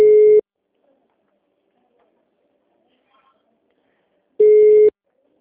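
Telephone tones heard while trying to place a call that will not go through: two identical short, steady beeps, each under half a second, separated by about four seconds of silence.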